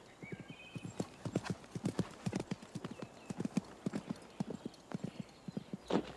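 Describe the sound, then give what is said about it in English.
Hoofbeats of a horse cantering across open country, a steady, rapid clip-clop of many hoof strikes, fairly faint throughout. “Matt canters across open country on the way to Cripple Creek.”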